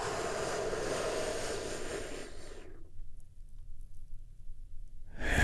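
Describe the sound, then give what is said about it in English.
A deep, slow breath taken during a guided breathing exercise: a long, soft, airy rush that fades into near silence, then another breath starts right at the end. “Take another big, deep, healing breath with me right now.”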